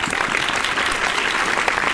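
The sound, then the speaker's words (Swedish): Applause fills the whole stretch: dense, steady clapping that stays loud and even from start to finish, with no pauses and no voices. “Vi kör en applåd på det då.”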